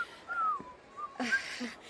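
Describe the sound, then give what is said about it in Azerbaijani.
A person whistling softly, a few thin, wavering notes with gently falling pitch, faint and interspersed with breathy sounds. “xahiş edirəm bu qədər fit çalma.”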